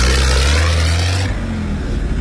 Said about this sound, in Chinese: 后面的车来了，看看。